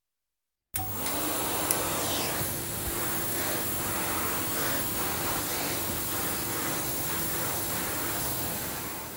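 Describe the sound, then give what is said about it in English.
A floor-cleaning vacuum cleaner starts up after a moment of silence and runs on alone, making a loud, constant roar with a steady whine that holds unchanged throughout. “This machine cleans floors.”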